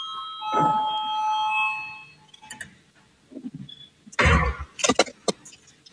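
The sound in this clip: An electric voting bell rings in a parliament chamber, a steady tonal ring lasting about two seconds, followed by scattered clicks and brief voices.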